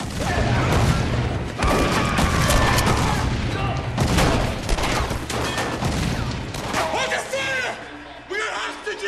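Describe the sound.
Gunfire erupts as armed guards shoot during a hostage scene: many sharp, loud shots and bursts in rapid, uneven succession, with people talking over the shooting.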